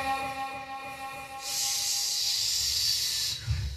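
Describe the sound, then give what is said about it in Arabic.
A snake's hiss, loud, steady and breathy, sets in abruptly and holds for about two seconds before cutting off. A faint low hum sits beneath it, and a soft low thump comes near the end. “اسمع الحية قوية أنت قوية حية قوية صح حية قوية”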